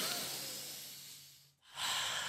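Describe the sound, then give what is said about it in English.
A group taking deep breaths, inhaling and exhaling: a soft, long airy breath fades away, falls briefly silent, then another breath starts strongly. “Deep breaths. I want two deep inhales and exhales from everybody right now.”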